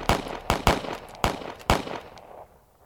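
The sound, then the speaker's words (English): Gunfire from a patrol of soldiers shooting into a snow cave: five sharp, loud cracks in an irregular rhythm, each with a short decaying tail, before everything falls quiet. “Without thinking, Campbell and the rest of the patrol shouldered their weapons and all began firing into the hole.”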